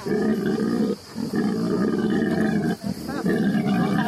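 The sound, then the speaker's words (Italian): A pig at an animal sanctuary lets out harsh, loud, roar-like grunting, as if complaining. The sound is almost continuous, broken by two brief pauses. “Questo terribile ruggito è la Peppa, che si sta lamentando probabilmente, e se ne va nel giaciglio.”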